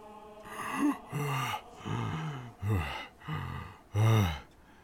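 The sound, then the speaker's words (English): A voice imitates the deep, sucking breath of a linen-wrapped body coming back to life: six strained, voiced gasps and groans in a row, the last one loudest. “A deep... sucking breath will come from the linen-wrapped body of the Dragonborn.”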